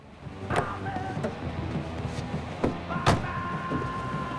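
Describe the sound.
Car door sounds outdoors at night as a man walks around the car to his own door: three sharp clunks against a quiet, steady background.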